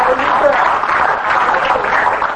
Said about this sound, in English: If you believe that I spoke the word of the Lord this morning, then give the Lord a hand clap.